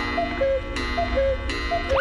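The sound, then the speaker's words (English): A cuckoo clock calls three times, each call a two-note falling cuckoo, with sharp mechanical clicks between the calls over a faint steady hum. “Oh, the cuckoo clock. That means it's time for me to go.”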